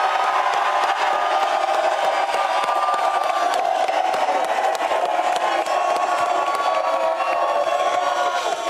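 Crowd cheering and shouting from a live audience outside State Farm Stadium at Super Bowl 57, a dense, loud, unbroken roar that holds steady throughout.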